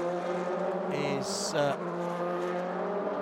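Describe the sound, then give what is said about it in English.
The engine of the number 51 sports car drones steadily as it passes through a turn during WeatherTech Sports Car Championship qualifying at Laguna Seca, with a brief harsher burst midway. “As the Eric Lux number 51 Biohaven car goes through and right on the tail of that car”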